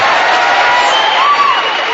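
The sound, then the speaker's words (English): Scattered, thin applause from an audience, a steady wash of light clapping with no distinct individual claps standing out, sustained through the whole moment. “Thank you for that smattering of wimpy applause.”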